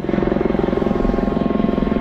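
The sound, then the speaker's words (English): Search-and-rescue helicopters circle over the collapsed bridge site in Baltimore, producing a loud, continuous rotor drone with rapid, regular chopping pulses and a broad engine whine. “Search and rescue helicopters look for signs of life, circling what can only be described as a remarkable sight.”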